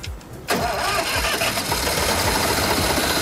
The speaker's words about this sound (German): Das ist Bayern, da wird der Traktor mit dem Schraubenzieher angeschaltet.